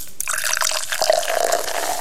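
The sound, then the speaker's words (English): A drink poured into a glass: a steady, gurgling liquid stream starts after a brief moment of quiet and runs evenly to the end, fairly loud and alone. “Up, here you go. Let me pour you a drink.”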